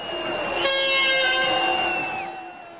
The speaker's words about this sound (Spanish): Toca una de sus bocinas para llamar su atención, pero él no se percata, así que vuelve a tocar.